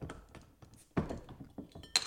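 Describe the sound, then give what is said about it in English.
A can of 7-Hop IPA beer is cracked open: a few soft knocks and clinks, then a sharp, bright snap near the end. “that's why I got the 7-Hop IPA to pay tribute to that Game 7 victory. So crack that bad boy open.”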